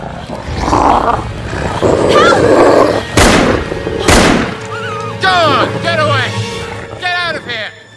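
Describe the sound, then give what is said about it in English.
Rough, harsh snarling growls from a wolf baring its fangs, coming in a few loud bursts mixed with other noisy sounds. “Amber looks around in alarm to find a wolf staring at her a short distance away, its fangs bared.”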